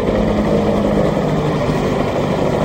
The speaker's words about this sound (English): Two military helicopters filled with well-armed soldiers sit on the tarmac,